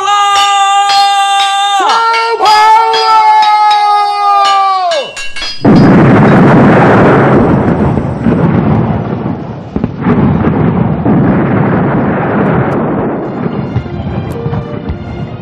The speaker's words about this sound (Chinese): 大家注意了，放炮！